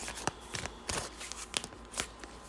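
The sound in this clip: A card is drawn from a deck, a faint series of soft papery rustles and brief dry flicks that come and go irregularly, with no voices.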